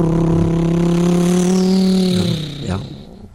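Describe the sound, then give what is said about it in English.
A car engine drives off with a steady, mid-pitched drone. Near the end it revs briefly, then fades out. “Or maybe he's getting into a car right now and it sounds something like this.”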